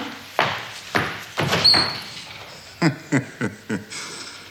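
A door opening onto a small toilet, with a few dull thumps and a short high squeak, then a quick run of sharp knocking taps.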